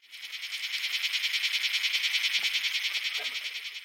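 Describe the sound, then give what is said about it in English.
A locust, a kind of grasshopper, gives a steady high-pitched rasping buzz pulsing in a fast, even rhythm of many beats, sustained throughout and heard alone. “That sound was... Locust! Locusts are a kind of grasshopper,”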